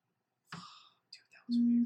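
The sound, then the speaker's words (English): A mobile phone vibrates with a loud, steady low buzz lasting under half a second, preceded by a few soft, breathy whisper-like sounds. “Whoa, my phone vibrating.”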